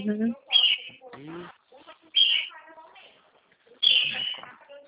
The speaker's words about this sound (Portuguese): Esse calopsita aqui, eles não podem ver a gente falar no celular, porque fica